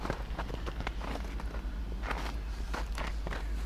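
Footsteps of someone walking along a garden path, many steps falling at a fairly steady pace, each a short scuffing tap over a constant low hum.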